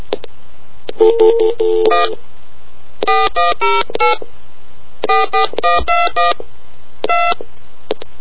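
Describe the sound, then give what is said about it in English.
Telephone keypad tones dial a number that starts with a 1 or 0 prefix. The beeps come in rapid clusters of sharp, steady tones separated by short pauses over a faint low hum, with no talk. “She was saying I need to dial a 1 or a 0. Let me try that again with a 1 or a 0.”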